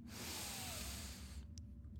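A deep breath drawn in: a steady, airy hiss of air lasts about a second and a half, then stops over a low background rumble.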